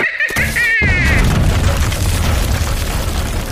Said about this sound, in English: My two-shot rocket launcher can handle this!